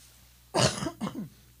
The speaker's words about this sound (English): I can also cut out your cough.